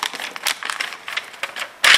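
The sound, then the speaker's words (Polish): A paper envelope holding score results is handled, giving many short, dry rustles and crinkles in an uneven patter, ending in a louder, sharper rustle. “W tej chwili przekazywana jest mi koperta z punktacją.”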